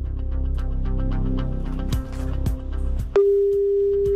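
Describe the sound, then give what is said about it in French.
Ringing tone of an outgoing telephone call to an agency in another city: a single steady, pure mid-pitched tone that begins abruptly and lasts about a second. “tour de contrôle des appels téléphoniques est en train de faire le numéro de l'agence qui devrait sonner d'une seconde à l'autre”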